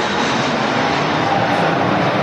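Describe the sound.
An aircraft engine roars at Madrid-Barajas airport: a steady, loud, rushing jet rumble that holds evenly throughout, with no voices.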